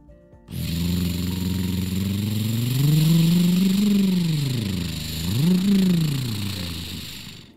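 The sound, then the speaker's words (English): A car engine starts abruptly and idles with a steady hum, then revs up into a rising swell, drops back, and revs briefly once more before settling. “All right, let's fire it up and see how it goes, said Edward.”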